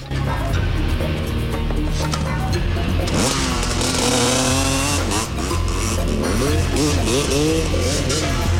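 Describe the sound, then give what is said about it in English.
A trail bike engine revs hard and races off during a chase, a loud buzzing motor whose pitch sweeps up and down repeatedly over a dense, constant background roar. “She passes Pike, who joins the pursuit on a friend's trail bike.”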